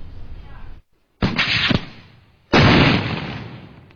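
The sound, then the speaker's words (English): Heavy artillery fired by Sri Lankan government troops toward Tamil Tiger rebel positions on the front line: two loud, heavy blasts, each followed by a long, roaring decay, after a noisy stretch that cuts off abruptly. “New images from a Sri Lankan independent TV station show government troops firing heavy artillery towards rebel positions in the front line of the conflict with the Tamil Tigers.”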